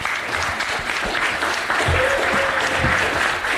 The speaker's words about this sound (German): Applaus.